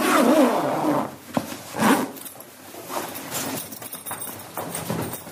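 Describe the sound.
A zipper rasps shut on a body bag as an undertaker closes it in a basement. There are a few scratchy pulls of uneven length, separated by brief pauses, with no talking.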